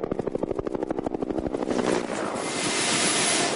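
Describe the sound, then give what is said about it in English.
A Huey helicopter flies with a game capture team aboard during a rhino darting, its loud, rhythmic rotor thumping merging into a steady, broad engine roar. “We were right behind them in the Huey with Jacques Flamand and the game capture team.”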